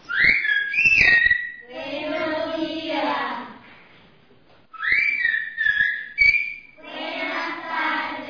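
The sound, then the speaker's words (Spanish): Silbo gomero, the whistled form of Spanish from La Gomera in the Canary Islands, sounds at a school where children learn it: two bursts of high, shrill, gliding whistled phrases, separated by stretches of softer, noisy sound. “este sonido les permitía a los habitantes de La Gomera comunicarse a través de valles y montañas. ¿Dónde están hoy los silbadores? Aquí, en una de las escuelas de esta isla canaria donde los niños aprenden silbo gomero.”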